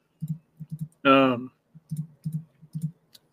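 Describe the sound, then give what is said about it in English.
Computer mouse clicks: many quick, dry taps in small clusters, with a brief vocal sound breaking in partway through. “This name doesn't look real familiar, so I'm gonna click on it and see what it says.”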